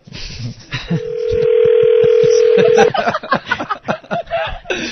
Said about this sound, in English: Here we go. Ringing.